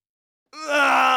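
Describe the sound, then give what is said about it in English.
A zombie groan sound effect from a soundboard: after a moment of silence, a single loud, throaty, harmonic-rich moan rises abruptly and holds steady, strained and guttural, alone without other sounds. “I think that's the sound of a human turning into a zombie.”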